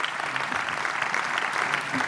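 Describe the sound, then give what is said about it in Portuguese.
Sustained standing applause during a political speech: dense, steady clapping from a large crowd, even in loudness throughout the short stretch, with no break. “Aplauso de pé neste momento do discurso de Nuno Melo”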